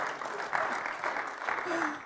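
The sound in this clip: A church audience claps for a graduating senior in bright, busy applause that swells a few times. A few voices are mixed in beneath the clapping.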